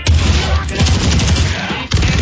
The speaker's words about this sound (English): Are those shots? Yeah.